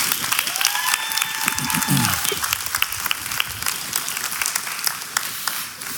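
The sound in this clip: A church audience applauds to welcome a guest onto the stage. The clapping is dense and steady for about six seconds, with voices mixed in, then eases off at the very end.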